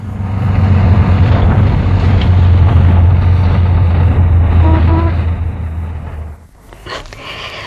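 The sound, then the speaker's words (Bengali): A bus arrives with a deep, steady engine rumble and roar that holds for several seconds, then drops away sharply near the end as the engine noise fades. “ওই বাস এসে গেছে, আসি।”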